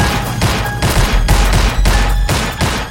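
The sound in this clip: Heavy gunfire erupts in a shootout skit: many loud, sharp shots crack out in rapid, irregular bursts with no voices between them.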